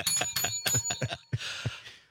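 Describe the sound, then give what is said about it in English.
A bell sound effect rings out in a quick series of bright, loud strikes, followed by a brief hissing wash, with no talk over it. “Give that a bell”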